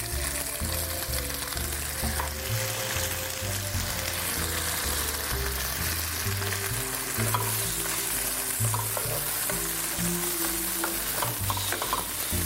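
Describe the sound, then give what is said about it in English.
Chopped tomatoes, about a loosely packed cup, fry in a pan for an Indian dish and are stirred, giving a steady, dense sizzle with scattered scraping stir sounds throughout. “tomatoes are in the pan. It's about a loosely packed cup.”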